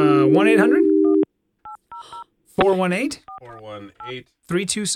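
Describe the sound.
Beeping DTMF tones sound as a telephone keypad dials a hotline number: a few short, clipped beeps with brief gaps between them, while people talk before, between and after the tones.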